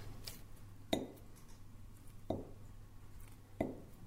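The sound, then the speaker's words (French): Butter dropping into a bowl on a kitchen scale: three faint, soft thuds with a slight clink, spaced evenly about a second and a half apart, with no voices. “Quel silence. Le bruit du beurre qui tombe.”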